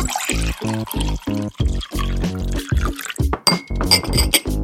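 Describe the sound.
Water poured into a glass, a continuous ringing gurgle of liquid with resonant tones shifting throughout, broken by a few bright glass clinks toward the end, loud and with no talk.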